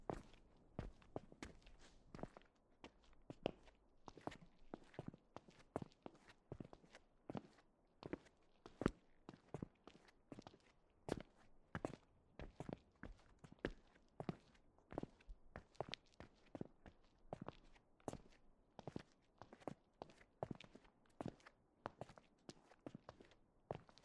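Footsteps walking outside, many steady, evenly spaced steps with crisp transients over a quiet background.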